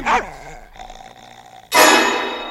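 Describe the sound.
A dog growls at a stranger with a rough, wavering snarl, then a steady lower rumble, ending in a sudden loud, harsh burst that fades slowly.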